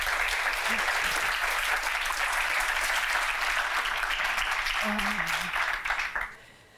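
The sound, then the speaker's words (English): Loud, steady applause from an audience welcoming a discussion panel continues without a break, then stops abruptly near the end. “Please give a warm welcome to the panel.”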